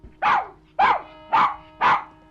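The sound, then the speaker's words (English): A terrier barks indoors, four sharp, evenly spaced mid-pitched barks, each loud and clear against an otherwise quiet background. “The terrier paces anxiously. I'm no heeding you. You're a fool dog.”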